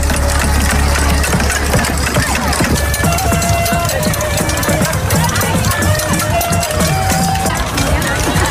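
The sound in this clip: People stamping on grass to drive worms to the surface in a worm-stamping contest: dense, continuous trampling under crowd chatter, with a clarinet sounding sustained tones partway through.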